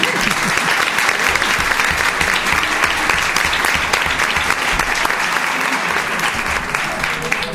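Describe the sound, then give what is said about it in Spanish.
Audience applause at a festival presentation of the court ladies and mayoress: loud, dense clapping that holds steady throughout without a break. “así que otro aplauso para ella.”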